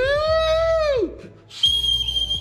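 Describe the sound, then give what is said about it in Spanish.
A man whistles loud, clear tones: a long held note that bends downward and breaks off, then a short pause and a higher steady note. “ya me está regañando el señor director, hombre, el señor productor por estar silbando acá”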